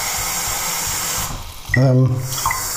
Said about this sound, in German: So, jetzt gieße ich erstmal in den Thermobecher Wasser, denn ich brauche die Menge.